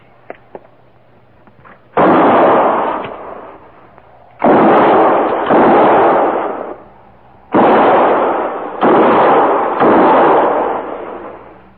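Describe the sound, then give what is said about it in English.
Gunshots fired between trees, six loud blasts at uneven intervals, each trailing into a long rumbling decay, preceded by a couple of faint clicks. “We'll try a diversion. Might bring them out. And no more than 3 rounds each. Fire between the trees.”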